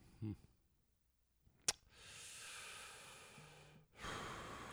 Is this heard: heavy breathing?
yes

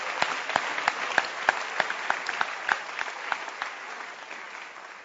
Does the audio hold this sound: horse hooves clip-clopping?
no

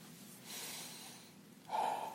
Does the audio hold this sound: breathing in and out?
yes

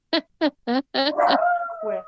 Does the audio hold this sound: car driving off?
no

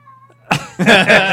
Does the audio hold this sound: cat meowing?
yes

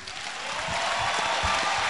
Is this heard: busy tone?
no

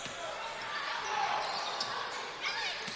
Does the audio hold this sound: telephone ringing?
no

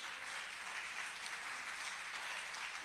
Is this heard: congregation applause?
yes

